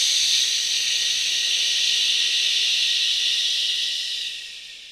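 A slow exhale during a breathing exercise, pushed out as one long, steady "shh" hiss that holds evenly and then tapers away at the end.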